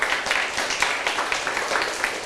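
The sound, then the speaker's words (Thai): Children clapping their hands together in a classroom as a rhythm exercise: a dense, fairly even patter of claps running throughout, with no separate beats standing out. “มีความสม่ำเสมอกันเด็กๆลองปรบมือไปเลย”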